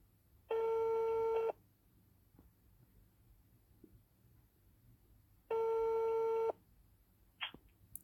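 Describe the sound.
Ringback tone of an outgoing telephone call being placed for an interview: two steady tones, each about a second long and roughly five seconds apart, with quiet low background noise between them and a faint brief sound near the end.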